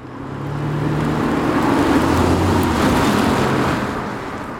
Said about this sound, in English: So as we drove around Dublin, that's where I started.